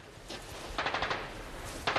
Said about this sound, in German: Sie erwidern das Feuer. Jetzt sind sie aufgewacht.